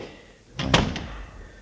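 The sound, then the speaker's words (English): A door is shut and locked: one solid thump followed by a faint click, heard alone. “I guess I better lock up. Although locks don't seem to mean much around here.”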